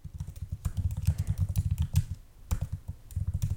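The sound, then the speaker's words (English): Rapid typing on a computer keyboard: many quick, crisp keystrokes come in dense bursts, stop briefly partway through, then resume at the same brisk pace. “And I found an article in German, but I can't find it now, so I'm just gonna type in”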